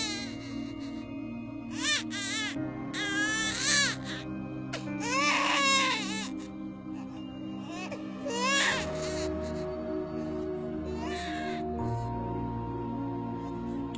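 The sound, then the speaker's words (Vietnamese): A baby cries persistently, with several strained, wavering wails over a low steady droning background, the cries fading toward the end. “Ông bất giác gai hết cả người khi ông nghe tiếng trẻ con khóc, khóc ngằn ngặt.”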